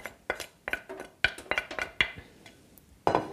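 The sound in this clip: Plates clink and clatter as dishes are cleared away after a meal, with many sharp ceramic knocks at an uneven pace and brief pauses between bursts.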